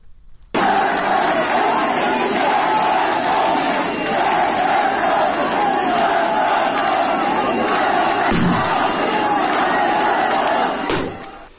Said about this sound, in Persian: مردم شعار بختیاری رسم نماز نداره، مرگ بر خامنه ای و شعارهای دیگه ضد حکومتی سر میدن که صدای ایزه رو میشنویم.